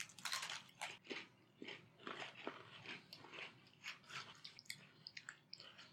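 Crunchy biting and chewing of a broken Oreo cookie: many crisp, irregular crunches, faint and alone.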